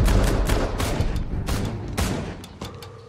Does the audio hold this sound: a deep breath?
no